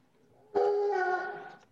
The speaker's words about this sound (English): Sorry about the dog in the background. Yeah, I think your dog is trying to escape because he knows your take's about to be awful.